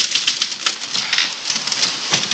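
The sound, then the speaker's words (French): Rapid, irregular clacking from a malfunctioning typewriter whose R key is faulty. The sharp mechanical strikes come in uneven bursts, alone and bright. “lorsque l'écrivain a des problèmes de machine à écrire”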